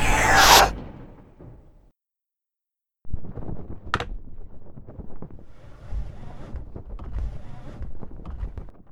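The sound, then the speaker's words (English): Sound effect of a spaceship airlock opening: a loud hissing burst fades into silence, then a sustained rushing, windy roar begins, with a sharp bright hit early in the roar. “Open the airlock. Understood. Opening the airlock in 5, 4, 3, 2, 1.”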